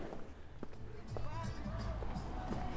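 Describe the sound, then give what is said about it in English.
Footsteps on a walk through the city of Turin, a few irregular sharp steps under a person talking steadily, with faint street bustle behind. “I'm walking the city of Turin today.”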